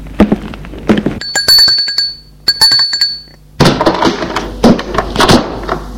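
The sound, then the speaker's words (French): A doorbell at a fifth-floor apartment rings as two bright, high-pitched tones in succession, framed by sharp clunks and knocks before and a busy stretch of clattering afterward. “Au 5e étage, il va sonner.”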